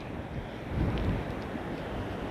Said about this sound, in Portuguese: E eu nesse exato momento não faço ideia do quão longe eu estou de casa. Estou andando pela praia aqui.